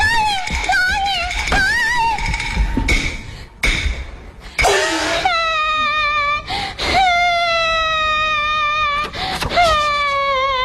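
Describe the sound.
A person cries loudly in long, wavering wailing tones that rise and fall, broken by sharp sobbing gasps, with the crying continuing steadily throughout.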